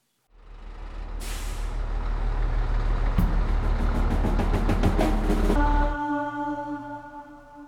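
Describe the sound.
Truck driving on a road at night, a loud steady low engine rumble with a burst of air-brake hiss early on and rapid clicking in the middle, until the engine drops away and a few steady tones linger.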